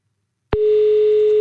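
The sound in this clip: A telephone dial tone sounds while calling back a caller who hung up: a click, then a loud, steady, unwavering single-pitched hum that continues to the end after a moment of silence.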